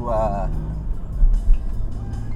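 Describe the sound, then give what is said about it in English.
A car drives at about 90 kilometers an hour, making a steady low engine and road rumble with a couple of louder thumps. A voice speaks briefly at the start. “I'm going 90 kilometers an hour around a nice”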